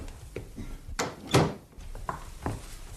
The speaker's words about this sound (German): Ich mach nur die Tür zu.